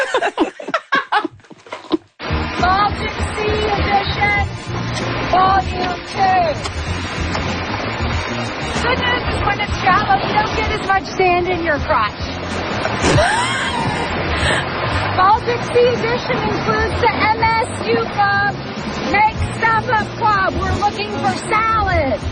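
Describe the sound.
Ocean waves surge in a loud, continuous wash of surf after a brief cut near the start, with people talking and laughing over it throughout.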